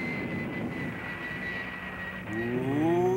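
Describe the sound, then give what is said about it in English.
Airplane engine drone, a steady tonal hum with a high whine, growing louder over the final second as a rising harmonic tone sweeps upward. “It looks like that airplane carried atomic weapons.”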